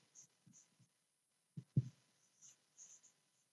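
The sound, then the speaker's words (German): Someone writes by hand with faint scratching strokes. A few short bursts are separated by quiet pauses, with a slightly stronger cluster of strokes near the middle. “Weil das ein bisschen kompliziert ist, schreibe ich das jetzt mal auf.”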